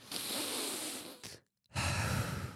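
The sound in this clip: Soft, breathy sounds of people taking a breath together: a long, airy inhale, a brief silent pause, then a rushing exhale.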